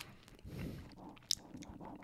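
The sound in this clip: Soft chewing of a crunchy, buttery banana snack, quiet and steady, with one sharper crunch near the middle.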